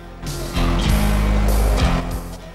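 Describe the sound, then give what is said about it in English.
Engines of an armored truck and an open-top CJ7 Jeep start up as the vehicles move off along a dirt track. A deep, loud rumble swells in after a moment and holds steady before easing slightly at the end. “They start up their vehicles and move off down the dirt track towards the house.”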